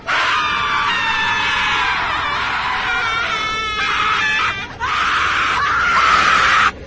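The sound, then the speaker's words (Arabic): A terrible, piercing scream rings out loud and sustained, shrill and strained, breaking off briefly near the end before starting again with equal force. “فجأة سمعت صوت صرخة رهيبة”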